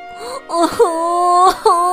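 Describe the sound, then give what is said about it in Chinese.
A boy cries in loud, drawn-out wailing sobs: several voiced cries broken by short catches of breath, with a rising pitch at the start. “男孩跳了又跳，跳了又跳，但还是没能够到树枝。他急得哭了，”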